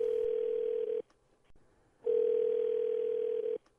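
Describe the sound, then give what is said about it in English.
A telephone line tone sounds as a number is called, heard as two long, steady, mid-pitched beeps separated by a clear pause, with only faint background noise between them. “Let's dial that number.”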